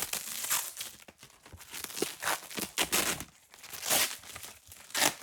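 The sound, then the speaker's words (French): Paper and cardboard rustle and crinkle as an archive box and a paper folder are opened, with many irregular crackles, scrapes and soft rips at a fairly quiet level. “Voilà, j'ouvre le premier dossier, je le découvre avec vous.”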